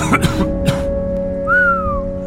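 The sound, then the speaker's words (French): A person gives a short whistle of astonishment, a single clear note gliding downward over about half a second, over a steady low hum and after a few soft knocks. “Je sifflais d'étonnement ou de compassion devant la face ravagée de mon ami.”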